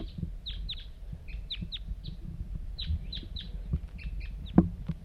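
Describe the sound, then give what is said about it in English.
A lone wild bird calls nearby with short, high, downward-sliding notes repeated in loose clusters, faint over a low rumbling background, with one sharp louder knock near the end. “pointed at the wild bird? Here it comes. One lone bird.”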